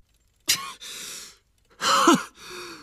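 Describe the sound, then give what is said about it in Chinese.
Two deep breaths, each a sharp inhale followed by a long, breathy exhale, heard clearly on their own with no talking. “哈利做了几个深呼吸，想努力稳定一下自己的情绪，但没有效果。”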